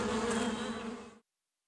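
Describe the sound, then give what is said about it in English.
Honeybees buzzing in a dense, steady drone that holds for just over a second, then cuts off abruptly into silence. “Ah, help! Honeybees!”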